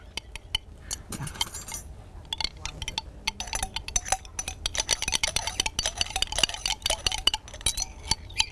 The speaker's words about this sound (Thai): ต่อไปก็คือเตรียมในส่วนที่สองนะคะเอาส่วนที่สองนะคะทั้งหมดเทรวมกันเลย